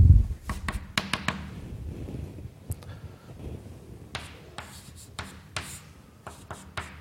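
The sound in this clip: Handwriting as a calculation's final result is written out by hand: quiet, irregular scratches and light taps with brief pauses, and no talking.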